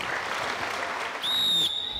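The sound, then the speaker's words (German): Audience applause for the referees at a season-end sports tournament, steady dense clapping throughout, with a brief high-pitched whistle-like tone sounding near the end. “Einmal kleiner Applaus für die.”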